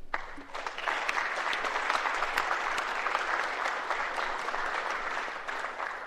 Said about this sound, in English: And would you all stand? And I'd ask the body to give them a nice hand.